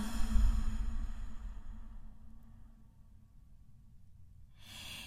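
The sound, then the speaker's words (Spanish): Exhaling a held breath during a guided breathing meditation: a long, breathy, airy exhale that starts strong and fades gradually over several seconds, with no talk over it. “Retén el aire, retén el aire y exhala.”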